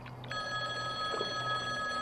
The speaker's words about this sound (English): the payphone, that's here for some reason. It's ringing.